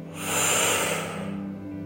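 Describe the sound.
One deep breath during a guided breathing exercise, a long, rough, hissing rush of air that swells and then eases off without stopping.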